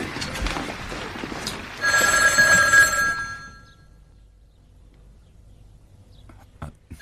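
A telephone rings once over a low background rumble, a bright trilling tone lasting about a second and a half, then dying away into near quiet with a couple of faint ticks.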